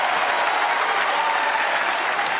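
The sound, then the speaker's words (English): Basketball crowd applauding and roaring inside the Forum during a Wisconsin–Oklahoma game after a defensive turnover, a loud, dense, continuous wash of clapping and crowd noise with no breaks. “Boyd amping the crowd up once again.”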